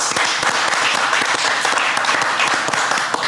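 An audience applauds with dense, steady clapping that fills the whole clip at an even, fairly loud level, with no talking over it.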